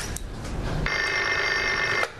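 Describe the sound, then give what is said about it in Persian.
A telephone rings with one sustained electronic bell burst about a second long, over a quiet background. “الو، نگفتم تلفن رو وصل کن؟”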